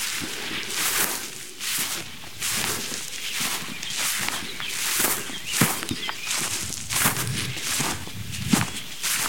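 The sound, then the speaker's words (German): Footsteps of walkers heading uphill on a trail in the morning, many steady, evenly spaced treads scuffing the ground at moderate loudness with no talk. “wenn die gedämpft ist und ihr die Schritte genießen könnt. Wir gehen jetzt mal hoch zu Hasens Rast”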